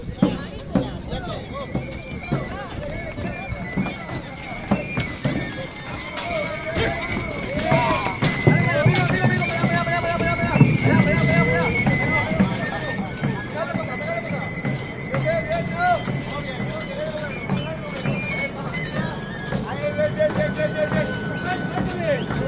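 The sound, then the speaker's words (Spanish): Horse hooves clopping while a horse-drawn cart is loaded onto a barge on the Guadalquivir estuary at Sanlúcar de Barrameda, bound for Doñana, with occasional whinnies and a bell ringing as people talk throughout. “Hemos vivido esta maniobra para subir a la carreta a esta barcaza de los hermanos Cristóbal, que nos va a llevar, como ya saben todos ustedes, a Doñana.”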